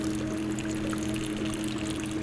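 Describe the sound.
Water flows over a peat bog in a constant, soft rushing wash over a faint steady low hum. It is unbroken for the whole span, with no voices.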